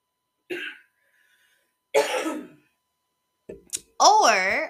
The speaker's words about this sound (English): every time I try to record, either I can't record because I'm coughing too much,